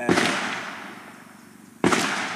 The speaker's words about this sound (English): In the middle of our conversation, two gunshots ring out.